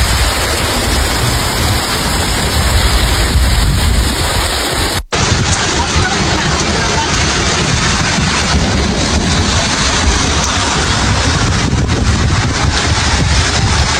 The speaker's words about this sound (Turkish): Kısa sürede şiddetini arttıran yağış nedeniyle cadde ve sokaklar suyla dolarken esnaf zor anlar yaşadı.